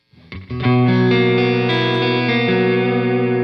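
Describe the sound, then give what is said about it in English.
A Stratocaster electric guitar played through an EarthQuaker Grand Orbiter phaser pedal: a few quick notes lead into a full chord that rings out loud and sustained to the end, with a rich, swirling harmonic texture. “I'm on my Strat today. Yeah. So the Grand Orbiter is a phaser, and I was surprised to get it. It also does vibrato, I think.”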